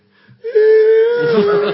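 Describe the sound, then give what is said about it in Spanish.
A person's crying wail follows a brief quiet breath. It is a loud, drawn-out moan that holds a fairly steady pitch and wavers slightly as it trails on. “Pero no llore por eso, es como los chicos.”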